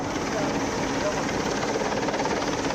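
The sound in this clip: A helicopter in a search-and-rescue exercise at sea gives a steady, broad, droning rotor and engine roar that holds at an even level throughout, with a voice talking over it.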